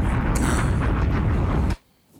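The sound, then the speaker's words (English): A loud bomb-explosion sound effect: a dense, rumbling roar that holds steady for under two seconds, then cuts off abruptly into near silence. “Bombs! Bombs! Real easy. Bombs!”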